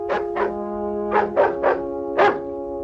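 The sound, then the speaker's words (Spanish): Six sharp barks from a Labrador near a stone bridge in a village, coming in uneven clusters over a steady tonal background drone. “En la aldea Dinsford, un perro labrador ladra cerca de un puente de piedra.”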